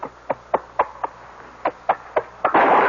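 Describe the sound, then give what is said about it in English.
A gunshot fired inside a house in a mystery drama: a sudden loud burst of noise closes a run of quick, sharp thumps. “What was that? Oh, she couldn't. She couldn't. It was a shot, wasn't it? I never thought. It sounded as though it came from this house.”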